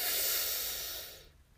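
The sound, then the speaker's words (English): A deep breath drawn in through the nose: one loud, hissing inhale holds steady for about a second, then thins and fades out. “let's breathe in together with a deep breath and a loud audible sigh when we release”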